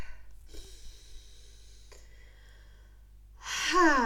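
A deep breath, mostly soft and airy, swelling at the end into a louder, rough, breathy exhale.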